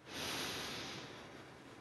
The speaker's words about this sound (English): we'll do three deep breaths in through the nose, out through the mouth